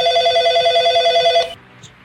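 A telephone rings for an incoming caller: one loud, trilling, warbling ring lasts about a second and a half, then cuts off into near silence.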